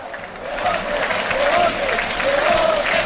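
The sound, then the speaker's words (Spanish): A stadium crowd cheers and applauds at Castalia during a football match with the home side leading 4-0. The roar is loud and steady, with a faint chanted tone running through it. “el público se lo está pasando en grande, está botando Castalia entero”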